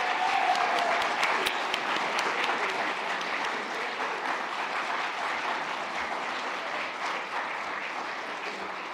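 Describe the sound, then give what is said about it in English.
Loud applause from an audience welcoming a host and his panel onto the stage at a hospitality institute event: dense, sustained clapping that holds steady for the whole stretch and eases off only slightly toward the end. “Now, let's make lots of noise as I welcome to the stage Phil Street and his panel.”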